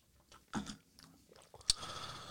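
Faint chewing on food seasoned with michelada mix and tomato: soft, moist mouth sounds and a few bites, with one sharp crunch near the end.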